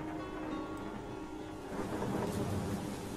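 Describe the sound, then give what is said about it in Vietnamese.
A thunderstorm brings heavy rain and rumbling thunder, heard as a faint, continuous low roar of rain with a deep rumble that swells slightly in the second half. “trời đổ mưa, cơn mưa mỗi lúc một lớn, sấm chớp lập lòe vang rền lên giận dữ.”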